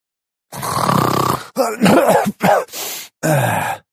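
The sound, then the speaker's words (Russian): A voice imitates a sleeping goblin's snoring: a long, rasping, buzzing snore, then a few shorter groaning, grunting bursts separated by brief pauses, with no other sounds. “Внезапно проснулся, разбуженный собственным храпом.”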